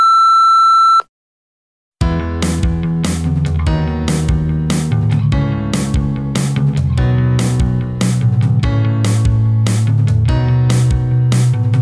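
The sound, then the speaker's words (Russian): A voicemail answering machine gives a single clear, steady, mid-pitched electronic beep lasting about a second. After a brief silence, a loud rhythmic tonal passage with regular beats follows. “Пожалуйста, оставьте голосовое сообщение после звукового сигнала.”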